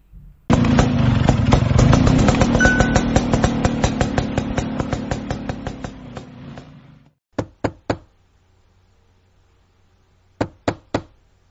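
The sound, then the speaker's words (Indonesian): A motorcycle fetched from a parking lot runs with a steady, pulsing engine throb, loud at first and fading over about seven seconds. Two quick sets of three sharp knocks follow, separated by a short quiet gap. “Aku ambil motor dulu ya di parkiran.”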